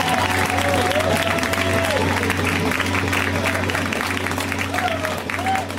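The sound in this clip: Applause and cheering from a live show audience greeting a guest, loud and steady throughout with a few voices calling out over the dense clapping, easing slightly near the end.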